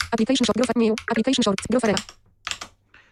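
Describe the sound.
Computer keyboard presses, arrow-down and Enter keys on a Mac running Parallels Desktop, come as a few short, faint clicks right after a stretch of speech.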